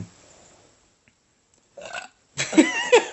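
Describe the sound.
A person belching: a short, soft burp after near silence, then a louder, longer, voiced and rumbling belch.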